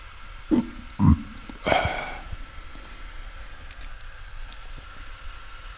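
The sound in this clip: A burp after eating apples: a few short, low, voiced belching bursts in quick succession, the last one rougher and longer, followed by a quiet, steady background.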